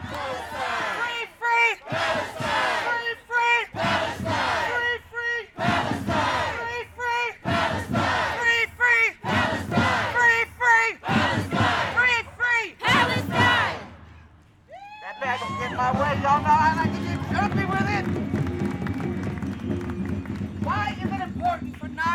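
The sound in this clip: A crowd of protesters at a rally for Palestine in Oakland roars, cheering and shouting in a loud, dense swell after a stretch of one voice talking in bursts.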